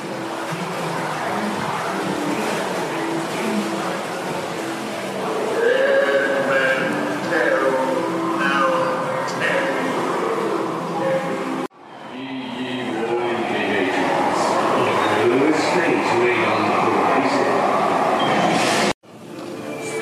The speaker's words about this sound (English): Now, some of the sounds you heard, that first one gives me chills. Like, I'm sitting here listening to it back, and the Dead Men Tell No Tales sound, and you can hear the water,